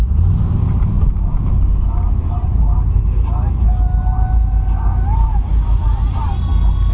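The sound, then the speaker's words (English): Engine of a manual-transmission car accelerating, a steady low rumble with a rising tone near the end, while people talk over it. “Oh, always driving a new stick is always a rough experience for the person. Wow. That is acceleration.”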